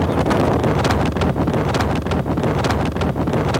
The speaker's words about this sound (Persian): حالا من پشت موتورم یه 5 دقیقه دیگه میرسم استودیو